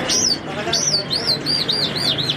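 Ornamental birds chirping at a bird market in Kandahar, a rapid series of bright, high-pitched arching chirps that come quicker toward the end over a steady low background murmur.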